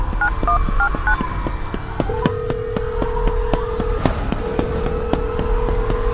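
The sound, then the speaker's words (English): A phone is dialed with a quick run of short keypad beeps, followed by a long steady tone with a brief break. Clicks and a low rumble continue underneath throughout. “Hold her off. I gotta call Chloe.”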